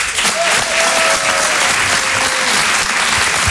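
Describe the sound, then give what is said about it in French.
Audience applause fills a comedy club, a dense, loud and steady clapping that holds evenly from start to finish with no break. “On peut l'applaudir encore une fois très fort.”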